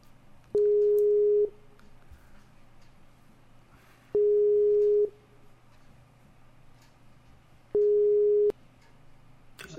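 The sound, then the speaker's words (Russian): The ringing tone of an outgoing telephone call: three steady mid-pitched beeps, each lasting about a second, evenly spaced with longer quiet gaps and faint line hiss between them. “Ну что, еще раз пробую позвонить. Очень надеюсь, что все получится. Отлично, звонок идет.”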